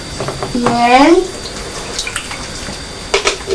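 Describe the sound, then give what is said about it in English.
Water splashes and runs in a bath full of bubbles, a broad wash of liquid noise with a voice rising briefly above it near the start. “Just be careful with the water.”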